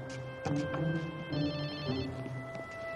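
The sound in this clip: A telephone rings with a short burst of rapid, high, warbling trill over a steady tonal background.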